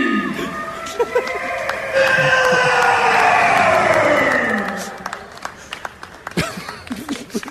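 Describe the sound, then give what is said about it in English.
A basketball crowd claps and cheers as players are announced coming onto the court. An amplified announcer's voice runs over it. The applause swells midway, holds for a few seconds, then thins out. “You hear that crowd? Sounds like a golf clap.”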